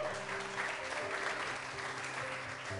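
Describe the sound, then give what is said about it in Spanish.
Quiet applause from the audience at a Sunday church service, soft dense clapping running throughout over a steady low tonal hum. “otro aplauso”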